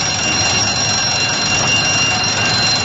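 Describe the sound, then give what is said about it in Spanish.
An alarm rings out as a warning of approaching danger, a loud, steady electronic tone with sustained high piercing lines that continues unbroken and unchanging from start to finish. “Pero de repente sonó una llamada de alarma.”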